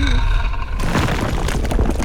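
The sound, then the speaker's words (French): A sound effect of stone statues collapsing breaks in abruptly as a low, rumbling crash of booms and rubble that stays loud and dense until the end. “Oh non, toutes les statues se sont écroulées.”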